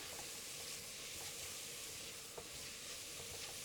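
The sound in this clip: Onions sweat in a pan with butter and a little olive oil, making a faint, steady sizzle with tiny scattered crackles and no talking.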